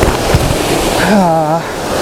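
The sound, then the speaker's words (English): Water rushes steadily down a slippery waterfall in a continuous broad roar, with a person's voice briefly heard over it. “The actual ledge that I wanted is back there. So I'm going to climb down this very slippery waterfall.”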